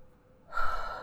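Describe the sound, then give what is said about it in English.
A single deep breath drawn in during a chest-tapping exercise: brief quiet, then one short, airy inhale. “And we're going to take another deep breath right here.”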